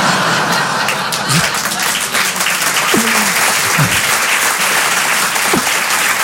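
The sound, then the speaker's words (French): Applause at a comedy show: dense, steady clapping fills the whole stretch at an even loudness, with a few brief voices and light laughter rising over it. “Une applause sur du caca! Chouette!”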